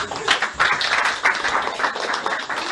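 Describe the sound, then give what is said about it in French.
A church audience applauds during a house-church service, a dense, continuous wash of clapping that holds steady throughout with slight swells in loudness. “Applaudissez pour ses frères.”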